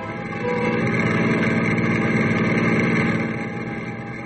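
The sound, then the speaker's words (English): A car drives away from a ranch house, its engine a steady, rumbling drone that swells early on, holds loud through the middle and then slowly fades toward the end. “Ken and Pagan are driving away from the ranch house”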